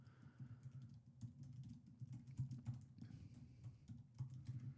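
Rapid clicking of computer-keyboard keys as someone types a search, many irregular light taps over a steady low hum, no voices.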